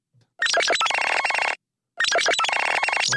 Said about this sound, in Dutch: de ringtoon van dat nothing toestel waar we het net over hadden, die telefoon.